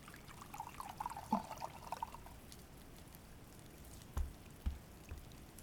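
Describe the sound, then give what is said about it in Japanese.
Hot water poured for coffee or tea makes a faint, thin trickle for about two seconds, followed by quiet and then two soft low knocks. “今、温かい飲み物を入れるわ。コーヒーと紅茶、どちらがいいかしら。 どっちもお湯を注ぐだけのものなのだけれど”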